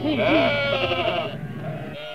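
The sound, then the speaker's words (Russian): A herd of goats bleating, with wavering, quivering calls that overlap one another in a loud, steady stream before easing off near the end. “Возглавляли процессию 220 коз и козлов.”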